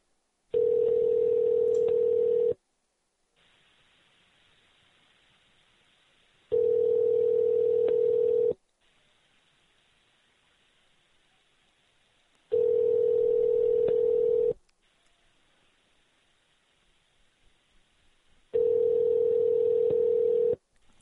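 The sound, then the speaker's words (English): Ringback tone of an outgoing telephone call waiting to be answered: four steady, loud, mid-pitched ring bursts of about two seconds each, evenly spaced with quiet gaps between them. “call and see if he answers since it's supposedly dinner time.”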